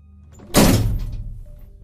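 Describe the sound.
A head bangs against a door frame, making a single heavy, dull thud with a low boom. The sound lingers briefly and fades, with no voices.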